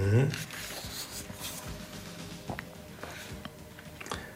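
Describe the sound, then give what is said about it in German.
Pen scratching across paper as an answer is written out by hand: faint, dry, uneven strokes with small scraping bursts, after a short voiced sound at the start. “Ich habe den falschen Begriff gewählt. Deswegen muss ich leider noch mal hier zu Ende schreiben, weil ich will natürlich eine biologisch korrekte Antwort geben.”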